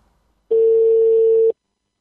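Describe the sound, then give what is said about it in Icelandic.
Ringback tone of an outgoing phone call: a single steady, pure one-second tone, fairly loud and alone, with silence before and after. “Hér læti ég vaða eitt símtal á hann.”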